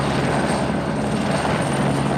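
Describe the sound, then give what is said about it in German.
A helicopter in flight during avalanche rescue work over snowy mountains, its dense rotor and engine roar continuous and loud, holding steady without a break throughout. “Solange das Wetter es erlaubt, sind alle verfügbaren Hubschrauber in der Luft.”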